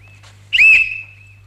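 A single sharp whistle blast, blown to cut off a recitation during a stage performance: one loud, high, steady tone of about half a second with a short fading tail.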